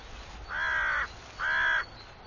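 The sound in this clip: Crows cawing in an area also frequented by magpies: two harsh, evenly matched caws, each about half a second long, separated by a short pause and heard alone over faint background noise.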